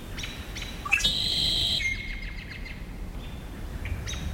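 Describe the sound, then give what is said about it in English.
American robin whinny calls and red-winged blackbird trills from a marsh on Saturna Island, British Columbia, at evening: a few sharp, high chirping calls and brief trills, strongest early on, over a low steady background. “The robin's whinny calls and the red-winged blackbird's trills now prevail.”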